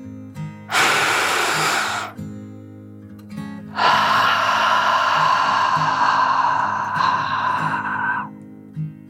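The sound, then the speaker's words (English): A deep, calming breath drawn in and let out, the slow dragon breath of a children's relaxation story: a short rushing inhale, a pause, then a long, airy exhale over soft, sustained background tones. “Suri relaxed even further and took one last deep dragon breath in and out.”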